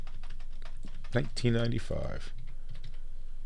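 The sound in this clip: Typing on a computer keyboard gives a steady stream of fast key clicks. A short burst of talking briefly rises over the tapping midway through.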